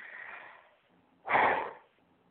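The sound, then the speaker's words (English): A forceful breath pushed out during a seated breathing exercise: a softer, drawn-out breath comes first, then a short, loud, gusty exhale, both breathy and unvoiced. “just take a deep breath and push the breath out faster, like this, and another one,”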